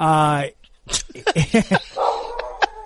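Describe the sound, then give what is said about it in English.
A dog whines in a long, drawn-out cry, then gives a few short, sharp yips and barks, with people talking around it. “what the hell is that? What is that? What is that? That is the dog. You brought a dog on vacation?”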